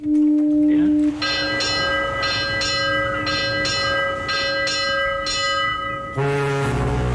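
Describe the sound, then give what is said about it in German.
A ship's bell rings as a ship leaves harbour during a sailing festival, a run of bright metallic strikes at a steady pace over a held tonal drone, closing with a deeper sustained tone. “Wie oft hat da die Schiffsglocke geläutet?”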